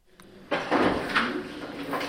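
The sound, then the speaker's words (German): Office drawers pulled open and emptied, name badges from conferences taken out of a cupboard: a soft slide and clatter starts abruptly after a quiet moment, followed by a few rustling, knocking handling sounds, moderately loud with no talk. “Schublade um Schublade räumen die Mitarbeiter aus, ziehen unzählige Namensschilder von diversen Konferenzen aus dem Schrank.”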